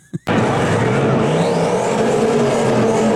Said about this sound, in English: Oh, it's an old style Mustang. That's an old Fox Body Mustang. Sounds like he's got a pretty good motor in it.